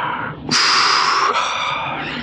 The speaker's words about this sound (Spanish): Acciona el encendedor automático y aspira el aroma intenso del cigarrillo turco.